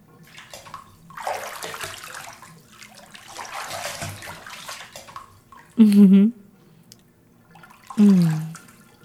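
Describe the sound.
Bathtub water draining out, a sloshing, rushing water noise that swells and fades over several seconds, followed by two brief, louder bursts near the end.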